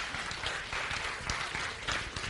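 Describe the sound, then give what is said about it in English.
Audience applause at a talk: a steady wash of many hands clapping, moderately loud and sustained throughout, with no voices standing out. “You just clapped.”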